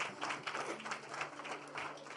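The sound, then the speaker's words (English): A church audience claps for the Lord Jesus, producing faint, uneven bursts of hand clapping that rise and ease a few times. “Clap for the Lord Jesus.”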